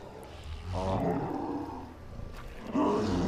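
A giant monkey creature roars in a video game. The deep, rumbling growl is loud and sustained, dips briefly in the middle, then swells again near the end.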